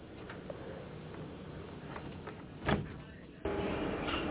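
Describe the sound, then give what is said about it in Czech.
Doors of a Prague metro train closing: a low mechanical hum runs under the stretch, then a short sharp burst and, moments later, a sudden step up to a louder steady rumble. “Ukončete prosím výstup a nástup, dveře se zavírají.”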